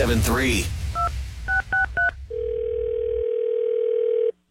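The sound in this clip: A telephone is dialed for a radio prank call: a brief voice, then four short touch-tone beeps, followed by a long steady tone that cuts off.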